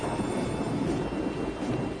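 Thunder rumbles through a storm with steady rain, a continuous low roll that stays loud throughout without a sharp crack, the patter of rain spread evenly over it.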